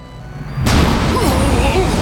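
A sudden loud boom bursts out as a spaceship takes a critical hit, followed by a sustained roaring rumble that holds to the end.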